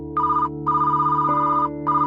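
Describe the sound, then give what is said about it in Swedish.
A telephone rings in bright electronic bursts: a short ring, a longer one, then a third starting, with brief gaps between. Steady low tones sound beneath the ringing. “Men bara dagar efter att Nicole Kidman fått se resultatet ringer telefonen.”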